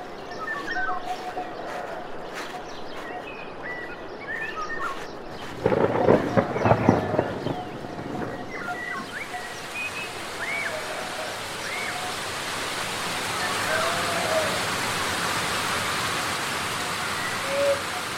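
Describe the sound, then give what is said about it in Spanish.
A sudden rain shower falls over a village: a brief rumbling burst, then a steady broad hiss of rain that swells and holds to the end. “la suerte quiso que una lluvia repentina se abatiera sobre el pueblo”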